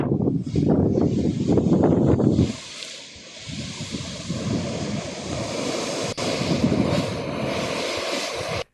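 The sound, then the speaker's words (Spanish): Water boiling and bubbling up from a valve in Pichanal, Salta, makes a loud, steady, churning roar with surging bursts throughout, slightly stronger at first, then continuing at a steady level, with no talk. “No, y ahí está hirviendo la, la válvula. Mira cómo hierve. A la vuelta la válvula.”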